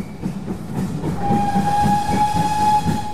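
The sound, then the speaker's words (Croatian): A narrow-gauge steam locomotive on an old tourist railway gives one sustained, steady-pitched whistle of under two seconds, sounding over the rhythmic rumble and clatter of the moving train. “Pisak Ćirine lokomotive, oblaci pare i uskotračna pruga rijetko se mogu vidjeti i doživjeti kao turistička atrakcija.”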